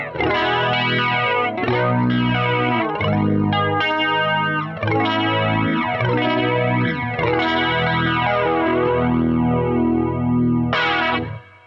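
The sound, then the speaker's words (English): An electric guitar runs through a flanger pedal, its strummed chords and sustained notes swept by a slow, repeating jet-like comb-filter whoosh that rises and falls throughout at a steady, moderate level. “it is a flanger, not a chorus”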